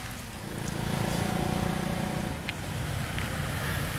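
A car pulling up, its low engine rumble swelling after the first half second and then holding at a steady, moderately loud drone until the end.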